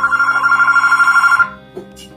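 A telephone rings with an incoming call, a loud, rapidly warbling electronic ring that sustains for about a second and a half, then stops and is followed by a soft click.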